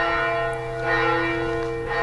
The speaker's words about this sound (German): Zum Dorffest wird die Glocke noch von Hand geläutet.